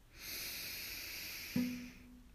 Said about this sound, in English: So it's actually coming out through our nose, but we're allowing the breath to circulate in the back of our throat there. This is the Ujjayi ocean breath. Again, in,